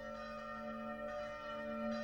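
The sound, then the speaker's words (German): Church bells ring in the distance as a faint, steady, sustained ringing with a shimmering tone and no voices. “vernimmt Fauxpas Kirchenglocken”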